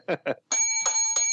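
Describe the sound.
A small hand bell is rung three times in quick succession, each strike giving a bright, ringing metallic tone that sustains into the next; two short voice sounds come just before the first ring.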